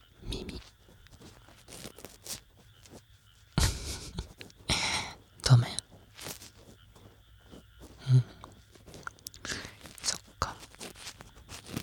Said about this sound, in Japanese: ちょっと噛んでみたいかね、噛んでみてもいい？